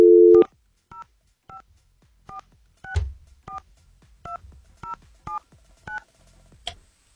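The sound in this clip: Telephone keypad dialing tones: a brief low tone opens, then a string of short, evenly pitched two-tone beeps sounds one by one with quiet gaps between them.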